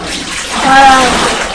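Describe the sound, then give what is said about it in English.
Water pours into a kettle in a loud, steady rush of splashing that swells in the middle with a brief ringing tone, then tapers slightly. “Mummy's going to put some more water in the kettle and boil it up.”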